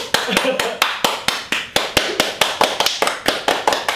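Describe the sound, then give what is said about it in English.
Rapid hand clapping: many sharp claps in a steady, even rhythm, with voices underneath. “So like do you just, ever clap at the end of a movie?”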